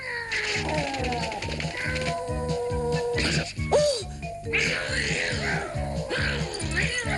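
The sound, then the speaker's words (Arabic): A cat meows and caterwauls, drawn-out harmonic cries that bend and waver in pitch, with a sharper yowl near the middle, all over a regular low rhythmic pulse that repeats throughout. “أنت قط جبان. هيا، فصديقتك تراقبك، قاتل قاتل.”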